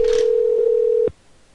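A telephone dial tone on a call attempt: one steady, loud single-pitch tone that holds for about a second, then cuts off abruptly, leaving only faint background noise.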